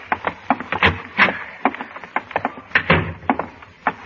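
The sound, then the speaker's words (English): An elevator arriving in a radio drama: a clattering run of many knocks, rattles and mechanical clicks, busy and uneven, at moderate loudness. “There's the elevator now.”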